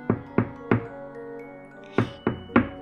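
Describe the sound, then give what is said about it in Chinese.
Knocking on a wooden cottage door: two groups of three firm, hollow knocks separated by a pause, with a soft sustained musical tone ringing between them. “He knocked on the door, pretending to be Little Red Riding Hood.”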